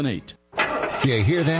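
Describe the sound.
A car engine starts: after a brief silence it bursts into a steady, broad rumble that keeps running, with a person talking before it and over it.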